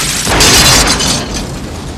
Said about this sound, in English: The driver short circuits. The cab lurches forward. It hits a wall and explodes.